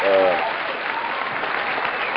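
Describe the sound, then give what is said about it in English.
Hands clap together in a burst of applause, a dense, even patter of claps. A voice is heard briefly at the start. “Hand clap for everybody.”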